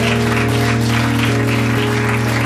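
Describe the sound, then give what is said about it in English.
Audience applause for the hosts of a house gathering, a dense, steady crackle of clapping that lasts throughout over a strong, constant low hum. “Can we get another round of applause for our fabulous hosts in this wonderful house,”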